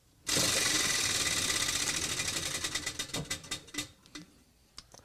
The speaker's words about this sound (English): Hey, spin that wheel.